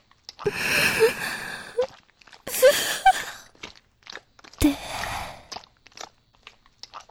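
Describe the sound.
Loud, wet slurping and sucking mouth sounds, piggish and smacking: three long bursts separated by pauses, followed by scattered smaller clicks and smacks.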